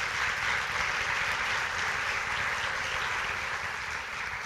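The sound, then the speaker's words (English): Audience applause as a guest is welcomed up for an interview, a dense, steady patter of clapping that holds throughout and eases slightly at the end. “Go ahead and give him a hand.”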